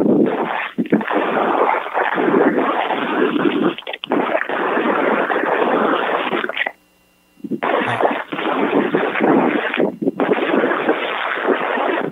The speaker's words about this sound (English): I mean, got them palm trees here and the wind's blowing.